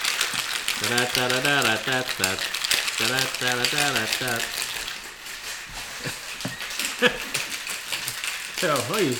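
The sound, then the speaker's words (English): Ice rattles and clatters inside a cocktail shaker being shaken hard, a dense, continuous, fast rattle that runs through the whole stretch with voices over it. “he's shaking all over the studio. I didn't want it to be too noisy. Sometimes I end up shaking right next to the microphone.”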